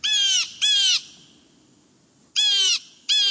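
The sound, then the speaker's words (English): Blue jay calls, four harsh, raspy jeer notes delivered as two quick pairs separated by a longer pause, loud and clear over a faint background. “East of the Rockies, you'll hear the blue jay.”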